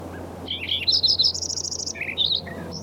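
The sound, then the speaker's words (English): A Lincoln's sparrow sings a rapid, bright run of high, bubbly notes and buzzy trills lasting about two seconds. The song rises into a sustained fast trill, then breaks into scattered chirps over a faint, low, steady hum. “Lincoln Sparrow number 1 continued.”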